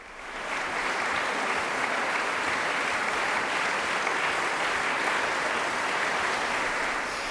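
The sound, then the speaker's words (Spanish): Enthusiastic applause from a concert audience follows a Schubert recital by a young duo in the Angélica Kauffmann hall. The clapping rises quickly, then holds as a dense, sustained roar of many hands for several seconds. “Estamos escuchando las ovaciones del público a este dúo que, pese a su juventud, es uno de los más aclamados del momento, especialmente en el repertorio de Schubert.”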